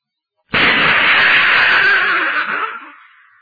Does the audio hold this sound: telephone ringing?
no